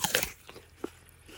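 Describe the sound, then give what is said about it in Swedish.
Someone takes a crisp bite into a freshly picked, juicy orchard apple. One sharp crunch is followed by a few faint chewing crackles, all quiet. “Har du smakat på några av äpplena än så länge? Nej, men låt oss göra det.”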